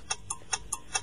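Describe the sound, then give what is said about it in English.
A countdown timer ticks during a quiz game: five short, crisp clicks in quick succession, fairly faint over a low background hum. “a 5-second timer to hold you accountable. Okay. Here we go. Timer at the ready.”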